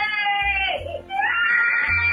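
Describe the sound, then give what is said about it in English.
A young girl crying loudly in a tantrum, with high, wavering wails and sobs that run almost continuously, dipping briefly in the middle before rising again. “This is her little tantrum this afternoon that's been going on for nearly 2 hours.”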